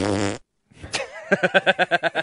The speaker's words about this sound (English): I use pre-recorded farts.